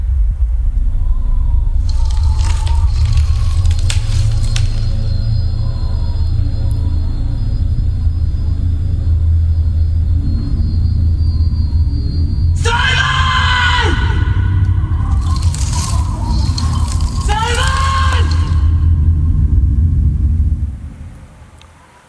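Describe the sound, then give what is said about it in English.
A film trailer soundtrack is built on a loud, continuous low rumble with sustained tones. In the second half, swelling, wavering cry-like sounds rise over it before everything fades out at the end. “Good trailer. Good trailer. Stands up. I haven't seen that trailer since the film came out, actually. It's really good.”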